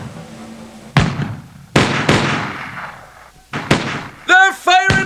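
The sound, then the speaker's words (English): Dramatized musket fire from British troops at Lexington: several sharp, loud gunshots with decaying tails, spaced irregularly, followed near the end by raised, shouting voices. “Whatever the truth, the effect was electrifying. Without orders to do so, the British troops began to fire.”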